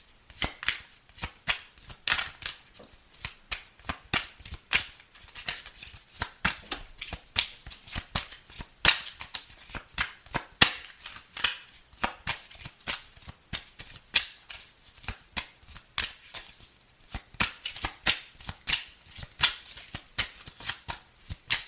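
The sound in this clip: Tarot cards being shuffled by hand: many quick, crisp snaps and riffling slaps in irregular bursts, fairly soft and continuing throughout.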